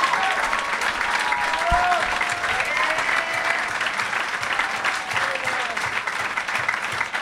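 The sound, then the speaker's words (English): Applause from the audience at the end of a live show in a Cincinnati venue: a dense, steady wash of clapping that stays loud and even for the whole stretch. “One more group round of applause for Jeff Tate, Emma Arnold, and Jacob Siroff.”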